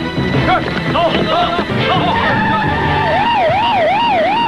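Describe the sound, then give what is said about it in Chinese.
Police car sirens wail loudly, their rising and falling tone taking over in the second half after a stretch of voices and clatter. “有很多警车”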